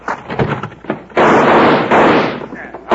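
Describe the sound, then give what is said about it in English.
Heavy gunshots fired into bunks during an old western radio drama, a few sharp, booming bursts following close after spoken voices. “All right, now get him. Shoot him in the bunks.”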